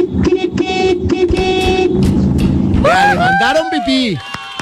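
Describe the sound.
A car horn honks in a series of short, bright tonal blasts that keep breaking through a busy background, followed by several longer tones that bend in pitch.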